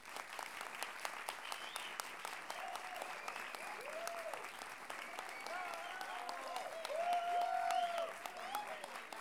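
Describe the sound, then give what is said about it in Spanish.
An audience bursts into applause on cue at a live music event. Dense, even clapping continues for about nine seconds, with a few cheering voices rising over it, and swells slightly louder near the end. “Así que a la cuenta de tres, ustedes aplauden y vemos qué pasa.”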